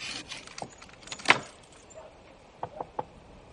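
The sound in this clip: Metallic clinks and a jangle as a padlock is handled and closed on a door: a few small, sharp clicks, one louder rattling jangle near the middle, then a couple of light clicks toward the end, with no voices.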